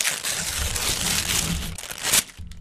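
Paper crinkling and rustling as an envelope is opened to announce an award, a continuous dry crackle lasting a couple of seconds, capped by one sharper, louder crunch just before the end.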